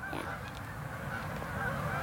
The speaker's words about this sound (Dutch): Komt een hele groep Canadese ganzen over.